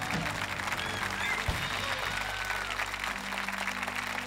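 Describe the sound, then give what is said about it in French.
Applause from a church audience standing to give an ovation: a continuous, dense clatter of clapping over low, sustained tones. “Pouvez-vous vous lever et donner une ovation au Seigneur qui déverse encore son onction”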